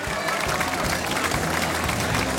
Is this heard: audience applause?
yes